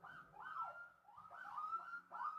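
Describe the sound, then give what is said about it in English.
Police sirens wail outside, faint but continuous, with several rising and falling sweeps that overlap and blend into one another, heard with no talk. “what is happening outside? That is the weirdest arrangement of sirens that I've ever heard.”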